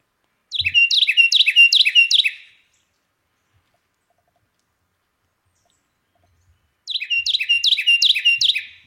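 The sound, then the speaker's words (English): Loud Carolina wren song: two bursts of rapid, ringing repeated phrases, each lasting about two seconds, with several seconds of silence between them. “we've got the beautiful sound of the Carolina wren, courtesy of Jacob and Cornell University.”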